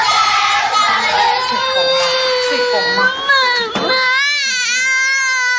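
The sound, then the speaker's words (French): Young children crying on their first day of kindergarten, loud sustained high-pitched wails and sobs that overlap continuously above the noise of a crowd. “La maternelle, les nouveaux inscrits sont en larmes. La séparation avec les parents est difficile”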